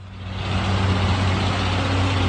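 Heavy truck engine rumbling steadily, from overloaded trucks carrying returnees and their belongings, with canisters and sacks stacked on the roofs. The low, dense drone stays loud and even throughout, with no voices.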